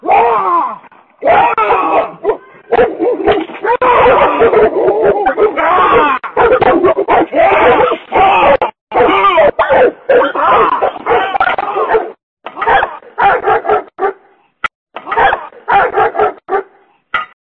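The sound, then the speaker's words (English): A pack of neighborhood dogs barks frantically at a man trying to hold them off at a doorbell camera. Many loud overlapping barks and yelps come in rapid bursts, with a man's shouting voice among them. “this is the sound of true fear, like where the guy's like, you know, he's in front of like a Ring doorbell camera trying to hold these dogs away”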